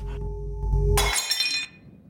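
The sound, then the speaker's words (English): A porcelain doll's head smashes in one sharp shattering crash, followed by a bright spray of tinkling fragments. A low rumbling drone before the impact cuts off as it breaks. “a doll's porcelain head smashes.”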